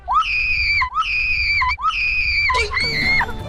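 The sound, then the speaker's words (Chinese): A person screams in four long, high-pitched, sustained cries with brief breaks between them, the last one harsher and shriller than the first three, loud and with no talking. “你的叫声听到了吗？ 听到吗？”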